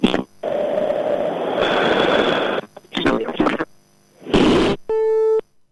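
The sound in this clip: After a dropped phone call, a loud telephone busy signal sounds in steady on-off pulses of buzzing tone, preceded by a long stretch of noisy line hum and brief crackling bursts.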